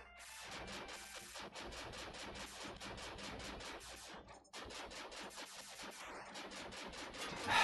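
Video-game gunfire in a long, dense run of loud, rapid bursts like automatic fire, with a brief break about halfway through before the shooting resumes.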